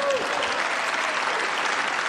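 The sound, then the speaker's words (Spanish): An audience applauds the French minister after the government announces it will suspend the online retailer Shein. The clapping is steady and dense, holding at an even level throughout. “Y era aplaudido cuando suspendía las importaciones de Shane.”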